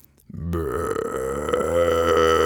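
A loud burp attributed to a striking pink bird perched on a house roof: a low rumbling start that swells into a long, buzzy, droning belch held for about two seconds.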